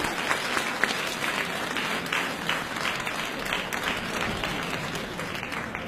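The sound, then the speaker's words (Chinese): Audience applause at a stage comedy show: dense, steady clapping from a large crowd, loud and even throughout with no voices. “好的，热烈掌声有请一下。”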